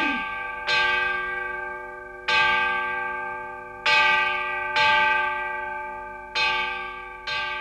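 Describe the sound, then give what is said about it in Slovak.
A bell ringing an alarm peals out in six strong, bright strikes at uneven intervals. Each stroke leaves a long, shimmering ring that fades before the next, with no voices. “Zvon ustavične bil na poplach a jeho hlas sa niesol na všetky strany a bolo ho čuť na severe i na juhu, na západe i na východe.”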